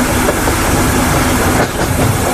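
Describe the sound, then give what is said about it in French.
A train on the Oslo to Bergen line pulls out of the Oslo station with a dense, loud, steady roar of wheels and carriages, a faint rhythmic clatter running through it, and no voices. “Ce que vous entendez, c'est le train qui quitte la gare d'Oslo et qui va aller jusqu'à Bergen.”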